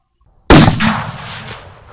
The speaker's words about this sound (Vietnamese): Bốn tiếng nổ lớn phát ra, kèm theo đó là một cơn mưa máu.